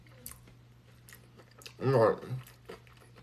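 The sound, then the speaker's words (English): Chewing on a soul food plate of fried tofu, kale, sautéed kale, baked cauliflower, wild rice and arugula: one loud, dense burst of mouth noise near the middle, with only faint low noise before and after. “I'm eating an amazing soul food plate that my sister made. It's delicious fried tofu, kale, sautéed kale, baked cauliflower,”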